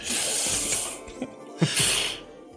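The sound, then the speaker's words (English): Deep breaths drawn during a stethoscope examination: two long, airy breaths with a soft breathy hiss, quiet and alone with no talking. “pulls out his stethoscope and, and a deep breath. Deep breath. Right, sit up. A deep breath.”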